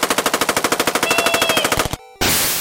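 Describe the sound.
Machine gun fire rattles out as a rapid, evenly spaced burst of many sharp shots, then cuts to a brief silence before a sudden loud wash of noise.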